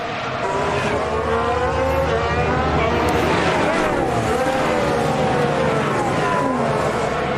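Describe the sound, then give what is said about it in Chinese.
A Formula 1 race car entering the pit lane gives a loud, continuous engine drone with wavering, shifting harmonics and a few swooping tones, holding a steady level throughout. “阿隆索现在进站了”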